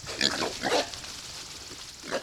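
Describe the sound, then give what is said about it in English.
Grunts from about a dozen small pigs running around a fenced area on a farm in south central Missouri. Two loud rough grunt bursts come close together, then a softer one follows near the end over low background noise. “About a dozen small pigs are running around a fenced area on DL Farms in south central Missouri.”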